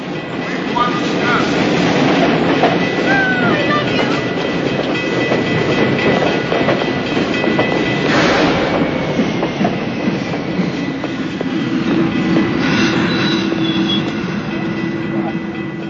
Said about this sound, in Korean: 열차가 들어서는 플랫폼. 통근 열차를 기다리는 출근길의 수많은 승객들